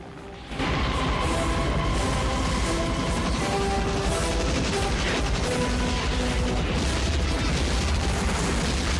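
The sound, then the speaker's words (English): Rockets fired from attack helicopters at a village: after a brief quiet moment, a sudden loud onset gives way to a sustained, roaring barrage with a steady droning hum beneath it that holds to the end. “A pilot pulls a trigger on his joystick. Rockets fire.”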